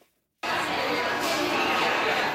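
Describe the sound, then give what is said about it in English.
Crowd chatter at Yellowknife Airport, packed with roughly 85 athletes arriving for a women's university basketball tournament: after a brief silence, a dense, steady babble of many overlapping voices starts abruptly and continues at a constant loud level. “That's the sound of Yellowknife Airport, packed with roughly 85 athletes Wednesday afternoon.”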